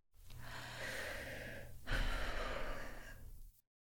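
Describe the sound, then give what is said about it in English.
A person takes a deep breath: a long, soft, airy inhale, then a slightly louder, rushing exhale of similar length. No one speaks. “Good. Take a breath.”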